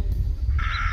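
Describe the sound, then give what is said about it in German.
A crow gives one harsh, drawn-out caw in the second half of the moment, standing out clearly above a low, steady rumble of background noise. “Man hört die Vögel, man hört die Krähen,”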